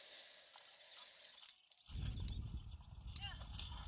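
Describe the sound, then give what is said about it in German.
Epona, the horse in the Zelda game Majora's Mask, gallops: after a quieter stretch of game sounds, rapid rhythmic clip-clop hoofbeats start and continue steadily to the end. “Weil Epona kann halt so schon schnell laufen.”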